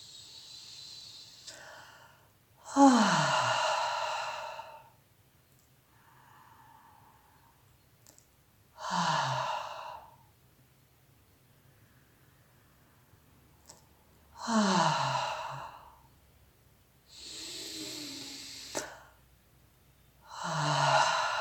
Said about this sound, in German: Gerne kannst du anfangs erst noch über den Mund ausatmen und durch die Nase bitte einatmen.